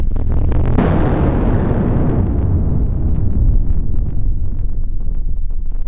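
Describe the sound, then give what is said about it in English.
A sped-up barograph recording of an atmospheric shockwave becomes a loud, dense roar. A sudden burst early on is followed by a long, steady, rumbling wash that stays strong throughout. “The atmospheric shockwave recorded by these barographs lasted for 5 days. If you sped the recording up, it might have sounded like this.”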